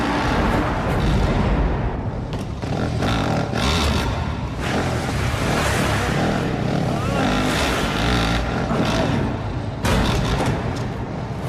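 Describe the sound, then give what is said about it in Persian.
Motorcycle engine held at high revs, a loud, dense, continuous roar that barely changes in level throughout, with small surges and dips. “نظر سرعت موتور کم شه، دور موتور رو بالا نگه دار.”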